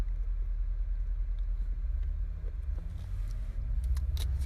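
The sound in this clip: A car engine rumbles steadily while driving, a continuous low, droning hum with faint road noise and a few small ticks on top.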